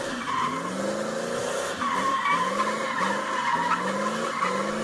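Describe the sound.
Tires squeal and skid as a car does donuts, with wavering arcs of screeching pitch repeating loudly and continuously under the engine's roar.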